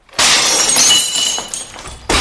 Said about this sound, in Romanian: Negricioșii au spart fereastra.